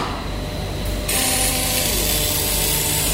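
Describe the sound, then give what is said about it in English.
Welding on metal panels to attach rails: a steady, harsh electric hiss and buzz that continues throughout, becoming louder and brighter after about one second. “This is welding. What we sometimes have to do is with panels that we send out, some clients want to put rails on them or all different kinds of things, but we have to weld it.”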